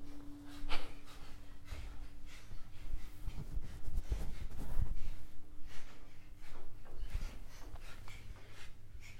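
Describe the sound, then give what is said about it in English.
Rapid, rhythmic nasal exhalations of a fire breath breathing exercise in a workshop. The many quick, faint bursts repeat in an even pulse over a steady low hum. “Fire breath, start.”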